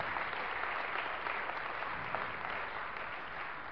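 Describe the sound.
Applause from a crowd thanking the cooks for a meal: dense, steady clapping that holds at an even level for several seconds, with no voices over it.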